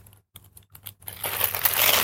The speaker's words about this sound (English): We tape it. This part is loud, sorry. The plastic is really loud plastic.